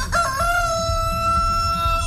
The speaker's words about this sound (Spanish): ¿Qué dice el gallo? ¿Sabes qué dice el gallo ahí? Ahí. Ah, dale, gallo.